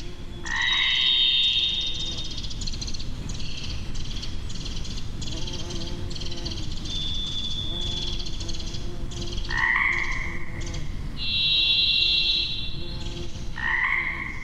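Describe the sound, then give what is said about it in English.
Pacific chorus frogs croak in a dense, continuous chorus in springtime wilderness, while a varied thrush adds several long, high whistled notes separated by pauses. “We're hearing a varied thrush there, Pacific chorus frog.”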